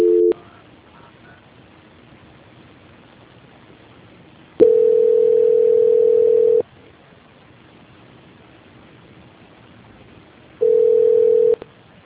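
Telephone line tones play while a call is being transferred: two steady mid-pitched beeps, the first about two seconds long and the second about one second, separated by a long stretch of quiet line hiss.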